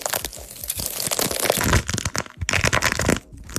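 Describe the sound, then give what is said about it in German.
Crackling, crunching squeezes of a stress ball coated in wax, plaster or nail polish, a dense run of sharp crackles and crumpling snaps that stays loud throughout, with no voices. “Oh, Social Media ist gerade wirklich voll mit so Anti-Stress-Squishies, also so Stressbällen, die komplett eingepackt sind in Wachs, Gips oder auch in Nagellack. Und dann drückt da eben jemand drauf.”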